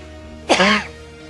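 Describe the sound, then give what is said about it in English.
A single short cough at home, a rough, throaty burst close to throat clearing, standing alone against a quiet background. “there's got to be something in the house, because I was not coughing at work today”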